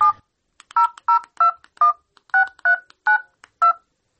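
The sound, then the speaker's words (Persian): Touch-tone beeps as a phone number is dialed, a quick, evenly paced string of about eight short, loud, clean key tones with brief silent gaps between them. “تو باش که اول به خاله شیما یک زنگ بزنم. شمارش چی شد؟ اینه یافتا.”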